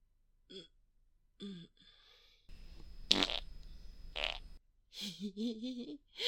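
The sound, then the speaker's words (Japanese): A fart: a rough, sputtering burst lasting about two seconds, with short vocal sounds from a person before and after it. “おならしちゃった。ああ、出る。”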